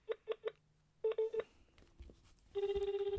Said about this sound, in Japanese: ちょっとじゃあ電話してみますね。うまくつながるかな。